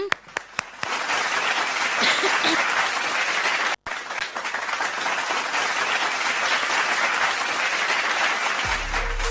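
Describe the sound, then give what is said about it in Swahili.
Sustained applause from an audience after people came forward to donate blood: dense, steady clapping that holds for about nine seconds, with one momentary dropout partway through and a fade at the end. “makofi hayo ni kutoka kwetu hapa Radio Joy FM na Joy in the Harvest.”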